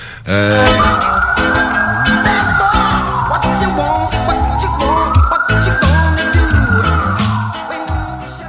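A police siren wails in slow rising-and-falling sweeps over a loud, punchy music jingle with heavy bass and a steady beat, both running continuously from start to finish.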